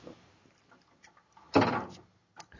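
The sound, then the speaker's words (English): A refrigerator door opens as someone rummages through the fridge: faint handling noises, then one louder clunk with a brief rattle and softer knocks afterward. No voices. “digging through the fridge”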